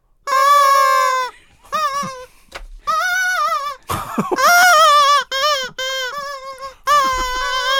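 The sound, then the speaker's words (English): Screaming rubber chicken toys, held with their heads in a mouth and laughed through, give a series of many long, high, wavering squeals broken by short gaps, with one rougher, noisier stretch midway. “Take these screaming rubber chickens.”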